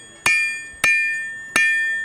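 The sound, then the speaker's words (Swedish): A medieval blacksmith hammers metal at a medieval market in Visby, Gotland. Three sharp metallic clangs fall at an uneven pace, and each leaves a bright ringing tone that fades slowly. “Ja, och det som ni hör nu, det är en medeltida smed, en sån som faktiskt fanns på skeppen.”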